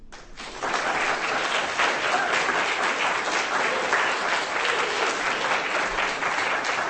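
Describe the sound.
Audience applause after a poetry reading: a dense, steady wash of many hands clapping that swells in just after the start and holds at an even, loud level to the end.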